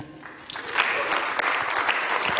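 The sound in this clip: A church audience applauds as a speaker is welcomed up, many hands clapping in a dense, steady burst that swells after a slightly quieter start.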